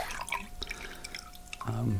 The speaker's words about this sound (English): This is a bowl of warm water with a strip of cedar bark.